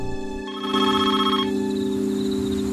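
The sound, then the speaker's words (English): A telephone rings with a bright, steady, tonal ring rich in overtones that sounds continuously and fairly loudly with no pause. “The phone rings, but he doesn't answer it.”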